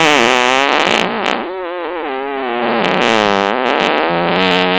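Fart sound effect: a loud, continuous buzzing blast with a wobbling, warbling pitch that dips and swells, lasting nearly five seconds without a break.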